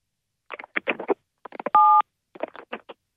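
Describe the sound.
A single telephone keypad tone from pressing a number key during a phone call, a steady two-pitch beep lasting about a quarter second, with other brief sounds before and after it.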